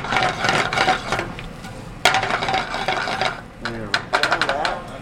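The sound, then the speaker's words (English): Vegetables sauté in a pan: fresh carrots, zucchini, red and green peppers, purple onions and thinly sliced Brussels sprouts. Stirring scrapes and clatters repeat in uneven bursts over a steady sizzle. “Then we get our vegetable medley, which today is fresh carrots, zucchini, red and green peppers, purple onions, and real thinly sliced Brussels sprouts. And then we get this sautéing and get it going.”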